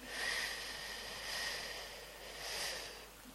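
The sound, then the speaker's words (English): A faint breathing-exercise inhale lasting about three seconds, a soft airy breath that swells in three gentle pulses, with no talking. “Then you breathe in for 3 seconds. I think so. I haven't done this in a while. So 3 seconds in.”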